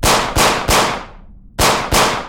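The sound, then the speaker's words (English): Five loud pistol shots fired over and over in a corridor: three come in quick succession, then a pause, then two more. Each sharp crack trails off in a brief decay. “I fired over and over again, the shots deafening in the corridor.”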